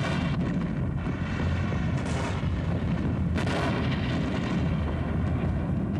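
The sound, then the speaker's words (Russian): Rapid artillery fire from a cannon battery shelling advancing French infantry: a dense, continuous rumble of overlapping heavy booms with no clear pauses between shots and no voices. “Батарея Тушина ведет беглый огонь по наступающей французской пехоте.”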